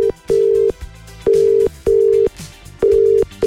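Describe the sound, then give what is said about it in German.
Ringback tone of an outgoing telephone call waiting to be answered: a steady mid-pitched tone in a few bursts separated by short pauses, with no talk. “Und dann habe ich ihr angerufen.”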